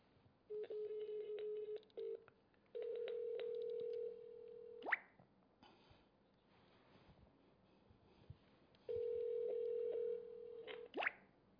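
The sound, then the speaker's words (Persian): Telephone tones after a call is cut off: three steady electronic tone bursts separated by quiet gaps, with faint clicks between them. “ما منتظریم ببینیم وصل میشیم یا نه. یا ارحم الراحمین. خب دوباره تماسمون رو قطع شد.”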